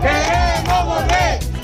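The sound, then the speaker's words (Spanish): A street protest crowd at night in Ceuta chants and shouts loudly, many voices merging into two long rising-and-falling cries over a continuous murmur. “Este es el sonido de las protestas de esta noche.”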